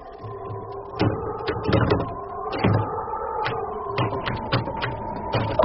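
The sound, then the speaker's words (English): A jammed hatch on a cramped, ice-bound vessel is worked loose and unlocked, giving many sharp, irregular metallic knocks and clunks over a steady low hum. “Okay, see if you can get the hatch open, though. Okay. No one breathe.”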